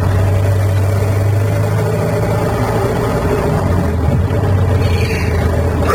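A car engine runs again after a breakdown, a loud, steady drone that holds unbroken throughout, with no voices.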